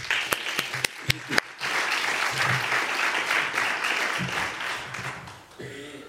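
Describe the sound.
An audience applauds to welcome a speaker at a lecture in Berlin. A few sharp separate claps come first, then dense, sustained clapping that fades out toward the end.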